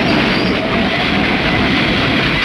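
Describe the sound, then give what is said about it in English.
A train braking hard with its wheels locking: a loud, continuous rolling rumble and grinding that holds steady throughout, with a faint high squeal. “The engineer pushes the brake valve and the train's wheels lock.”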